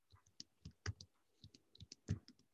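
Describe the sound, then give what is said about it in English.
Typing on a computer keyboard: quiet, irregular key clicks tapping out in short uneven bursts, with no one talking. “Uh-oh, you're gonna suffer from my typing.”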